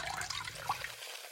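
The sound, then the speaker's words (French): Liquid pouring into a tall glass, syrup topped up with fizzy water: a short, splashy pour that cuts off after about a second. “il vous suffit simplement de verser une cuillère à soupe de sirop dans un grand verre et de l'allonger avec au choix de la limonade, du tonique ou de l'eau gazeuse.”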